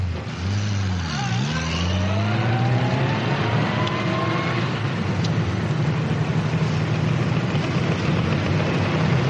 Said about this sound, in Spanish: Vuelve al coche. Se marchan.